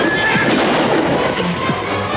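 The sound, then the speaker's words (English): A pair of horses gallop through a barn, neighing and whinnying over a dense, loud, continuous wash of hoofbeats and rumble. “Ben and Rick have climbed onto a pair of horses and gallop through a barn.”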